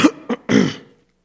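A man clears his throat during a Bible reading in a sermon, with a frog in his throat: three short rough bursts, the last longest and loudest before fading out, with no talking.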